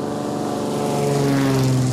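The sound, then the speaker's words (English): Steady, droning engine of a small propeller plane in flight, on an hour-long run carrying sacks of fruit from an improvised airstrip to Medellin; a loud, continuous hum with layered tones and no speech. “With no roads, the only way to send the jagua for processing is an hour-long flight by small plane to Medellin.”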